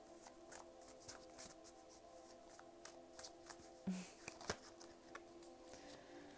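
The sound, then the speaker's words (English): Tarot cards being shuffled: many soft, crisp riffles and snaps of card stock in an uneven patter, with a couple of sharper slaps near the middle, over a faint steady hum. “Next three cards out, we have the Temperance, the High Priestess, and the Nine of Pentacles.”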